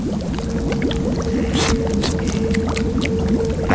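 A precious liquid is poured in a steady, continuous stream with a bubbly gurgle and a faint sustained tone running through it. The pour stays moderately loud from start to finish, and no voices are heard.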